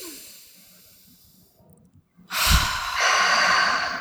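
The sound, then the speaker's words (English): A deep breath taken during a guided finger-tapping relaxation exercise: a quiet stretch followed by a loud, rushing, airy breath lasting nearly two seconds. “So deep breath.”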